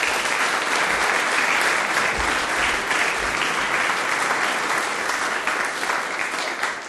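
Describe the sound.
An audience welcomes a speaker to a morning gathering in Felixstowe with steady, dense applause that carries on evenly for about seven seconds without a break.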